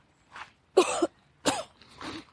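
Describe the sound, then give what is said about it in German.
Coughing from someone who has just inhaled a small piece of candy: a few harsh, rasping bursts of uneven strength, separated by short pauses, with no talk. “Mir ist gerade beim Einatmen ein kleines Stückchen Bonbon in den Rachen geflogen.”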